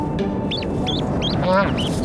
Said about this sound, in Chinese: 住在洞穴里的这家斑头雁也等到了幼鸟破壳而出，从母雁身体下钻上来的这一刻